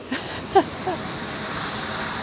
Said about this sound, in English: Water gushes into the plastic barrel. A cool mist from a leak in the hose rains over us.